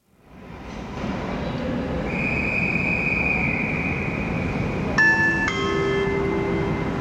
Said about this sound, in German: auf Gleis 12 fährt ein Intercity Express 543.